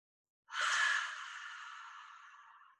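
A single long breath exhaled during a yoga stretch, rolling back down: a breathy, airy rush that starts abruptly after a moment of silence, then gradually softens without ending.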